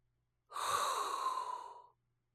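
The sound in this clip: A single long inhaled breath, heard alone against silence: a steady, airy rush of air that lasts about a second and a half and then stops.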